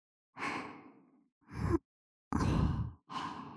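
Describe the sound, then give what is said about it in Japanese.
Soft breathy blowing into the ear, four gentle airy puffs separated by short silences, quiet and close, with no speech. “お耳ふうふうするにゃ。”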